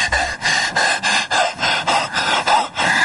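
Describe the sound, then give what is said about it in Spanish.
A man pants heavily over a frightened woman in a tense scene from a 1993 dark comedy film. His loud, rasping breaths come many times in quick, steady rhythm, with no talking. “jadea sobre ella”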